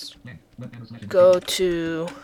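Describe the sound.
Fingers tapping out a web address on a keyboard, a quick run of light clicking keystrokes, followed by a person talking over the end of the typing.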